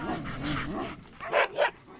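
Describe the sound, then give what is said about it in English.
Sled dogs at a snow-covered ranch bark while waiting their turn to be hitched to the sleds: a wavering, whining yowl, then two sharp barks in quick succession. “the waiting dogs bark louder, anxious for their turn”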